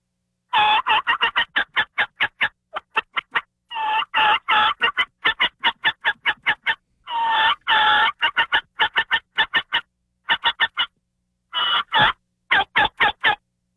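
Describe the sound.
Turkey hunting call blown while blind calling on an acorn flat or ridge, imitating flock sounds and yelps: many rapid, sharp yelps in quick bursts separated by short pauses, loud and alone with no talking.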